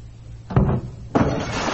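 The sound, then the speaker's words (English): A cabin door being opened makes two dull knocking clunks, each followed by a rustling, scraping wash of sound that continues to the end. “Here, I'll open the door for you”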